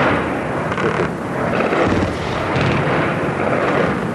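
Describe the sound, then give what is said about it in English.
Gunfire in Baghdad at the start of a massive aerial campaign: a loud, sustained roar of rumbling, crackling noise with a few sharper bursts standing out, with no voices. “These are shots being fired now in Baghdad. I want our viewers to listen in.”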